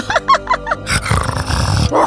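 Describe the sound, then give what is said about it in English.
Dogs growl and snarl in a loud, rough, continuous rumble. It follows a few short, high whining cries. “the smile dogs come. Here they come now.”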